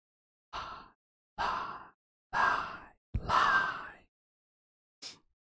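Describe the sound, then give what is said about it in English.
Wheezing breaths from a person who feels dried out: five raspy, breathy exhalations like sighs, the fourth the longest and loudest, then a short, fainter one after a pause, with no talking. “I love that if I turn it up that high, you can hear the wheeze I had there.”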